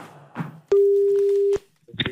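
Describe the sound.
A telephone ring tone sounds on a call line as a single steady, mid-pitched beep lasting under a second, with brief voice fragments just before and after it.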